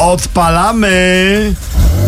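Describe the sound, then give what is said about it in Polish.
Porsche 911 engine starting and purring, loud and tonal, with a short opening blip followed by a longer held rev that then drops away. “odpalamy nowy samochód byłego prezydenta Andrzeja Dudy. No, mruczy? Mruczy. Pięknie, 911 Porsche 911”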